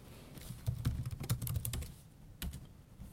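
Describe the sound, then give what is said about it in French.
Computer keyboard typing as a search is entered on GitHub: quiet, rapid clusters of many keystrokes, a short pause, then a few more clicks. “Donc on va aller sur le GitHub aussi. On va taper typo 3 GridElement.”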